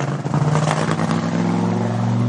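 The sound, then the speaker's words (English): A car engine drones loudly and steadily with a low, even hum and a brief rev at the start. “it's a nice car.”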